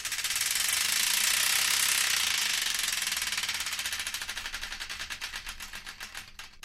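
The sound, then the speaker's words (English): A game prize wheel spins with a dense, rapid clicking rattle that gradually slows until the individual ticks become distinct and spaced apart. No voices are heard. “Here with me, Matthew Hawkins, and I believe it's once again time to give that wheel of destiny another spin.”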